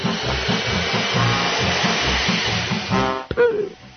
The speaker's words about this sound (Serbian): To nešto čuje se samo nedeljom. Veliki, zli usisivač.